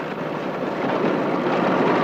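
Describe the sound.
A tractor engine runs with a steady, broad, rough roar that swells slightly louder over about two seconds. No voices are heard.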